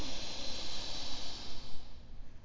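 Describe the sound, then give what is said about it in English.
A long, deep inhale during a breathing exercise, heard as a soft, airy hiss that holds steady for about two seconds and then fades at the end. “Press it out. Lengthen your breath. Deep inhale”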